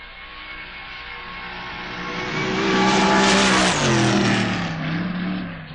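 A drag racing car on a test run, caught at the top end of the strip: a harsh engine roar swells to a loud peak, then its pitch drops and the noise eases as the car passes.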